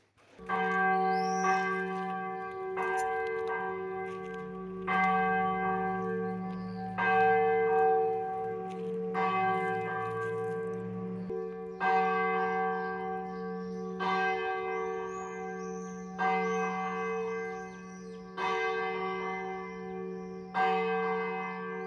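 A church bell in a bell tower tolls to mark the end of the market, with many slow, evenly spaced, loud resonant strikes whose humming ring sustains and overlaps between hits.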